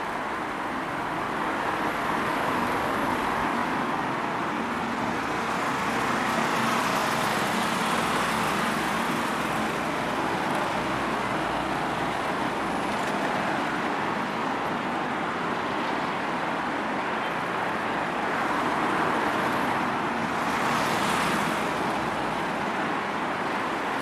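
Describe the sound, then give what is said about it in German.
Car traffic on the A2 motorway in western Germany forms a continuous, dense roar of passing vehicles, gently swelling and easing without any single car standing out. “Wenn wir heute von Gelsenkirchen, Bochum, Hannover oder einer anderen westdeutschen Stadt nach Polen fahren wollen, nutzen wir diese Autobahn.”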